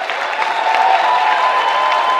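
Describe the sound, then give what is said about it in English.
Supporters in a packed, ornate courtroom in Media applaud and cheer after a newly elected official takes the oath at a swearing-in ceremony. Dense, steady clapping holds at an even level throughout. “On Tuesday, supporters of the newly elected officials packed an ornate courtroom in Media, ready to cheer after each took oath.”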